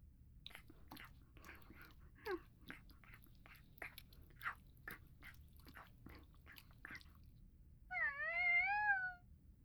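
A cat eats its breakfast with many faint, quick crunching and clicking bites at an irregular rhythm, followed by a short, wavering meow near the end.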